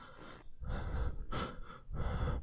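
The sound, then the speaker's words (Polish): A woman breathes heavily, a few raspy inhales and exhales in a slow, uneven rhythm, fairly loud and heard alone with no talk. “oddech, chyba kobiecy”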